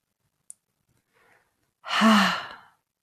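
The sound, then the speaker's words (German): A single slow, breathy exhale taken during a breathing exercise, soft and gradually fading. It is preceded by a tiny click and a faint earlier breath, with no talk over it. “Die Unruhe ausatmen, rotes Licht und Freude einatmen.”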